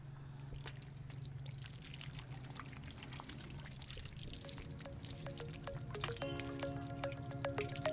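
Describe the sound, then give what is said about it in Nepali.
Water pours and drips steadily as hands are rinsed after handwashing. The trickle is faint and continuous, with no speech. “हामी जहिले पनि यसरी चाहिँ हात धुनुपर्छ हुन्छ हामी अब पखाल्नेछौँ”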